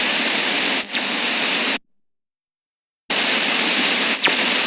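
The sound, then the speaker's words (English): A simulated burst of waves, rendered as audio that resembles the squelch of a CB or walkie-talkie, plays as two loud bursts of harsh static hiss. Each burst carries a quick falling whistle sweep, and a stretch of complete silence separates the two. “Some guys have created facsimiles, and all they sound like is a squelch on a CB or walkie-talkie. Here they are.”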